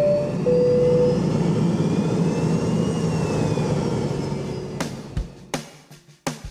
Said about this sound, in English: At this time, we ask that you fasten your seatbelts and prepare for takeoff.